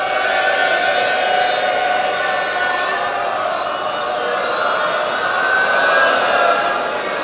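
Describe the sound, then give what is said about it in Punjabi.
An audience at a Sikh gathering shouts a jaikara together, the collective devotional cry forming one loud, sustained roar of many voices that holds steady and swells slightly near the end. “ਜੇ ਤੁਹਾਡੀ ਪ੍ਰਵਾਨਗੀ ਹੈ ਤਾਂ ਫਿਰ ਮਿਲ ਕੇ ਸਾਰੇ ਇੱਕ ਜੈਕਾਰਾ ਬੁਲਾ ਦਿਓ।”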